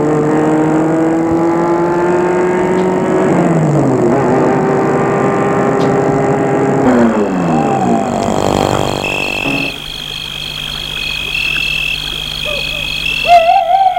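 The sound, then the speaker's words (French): A car drives up and stops at an entrance, its engine giving a loud tonal hum that steps down in pitch as it slows, then settles into a quieter steady sound. “La voiture s'est arrêtée devant l'entrée.”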